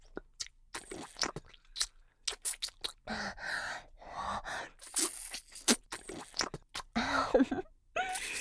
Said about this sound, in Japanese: なんか苦しそう。美味しそうに食べてよ。よく噛んで。